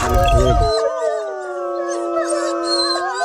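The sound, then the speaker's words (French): Wolves howl in a chorus of long, sustained, overlapping tones that waver and hold steady for the whole stretch. A brief burst of low rumbling noise comes before the howls settle in. “Oula, y a des loups là.”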